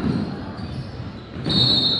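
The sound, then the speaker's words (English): A basketball dribbled up the court during a game, its bounces heard as muffled thumps blended into a continuous layer of arena noise. “rebounded by Colin Ewing, who's dribbling the ball, bringing it up,”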